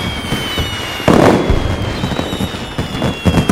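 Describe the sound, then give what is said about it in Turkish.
Fireworks on a crowded street: a sudden loud burst of crackling pops breaks out, followed by a steady stream of crackles and bangs. “Kalabalık bir cadde, havai fişekler.”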